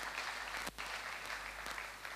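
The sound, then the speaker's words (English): Congregation clapping hands during a church sermon, a dense, even patter of many palms that briefly drops out near the start, then carries on steadily. “Can you clap your hands for Jesus?”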